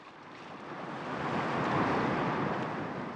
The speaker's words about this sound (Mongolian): Өвгөн гэдрэг явж өнөх далайдан ирлээ. Далайн ус мэрэлжиж даант сайхан харагдлаа.